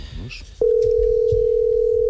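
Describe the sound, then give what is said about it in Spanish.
A telephone call being placed: after a moment of soft talk, a steady dial tone starts abruptly and holds at one unchanging pitch, loud and continuous to the end. “Estamos llamando.”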